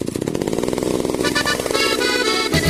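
Chainsaw engine running in an advertisement for a chainsaw dealer, a loud, raspy buzzing drone with strong harmonics that shift as it revs, continuous for nearly three seconds with a brief change in tone at the very end.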